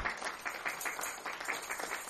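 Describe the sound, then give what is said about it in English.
Faint applause from a church audience giving a clap offering during a service: soft, uneven clapping that swells and dips slightly throughout. “Give him another clap offering.”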